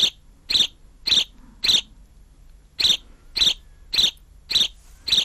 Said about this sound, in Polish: No, zdradzę, że to jest wróbel. To jest wróbel domowy, passer domesticus.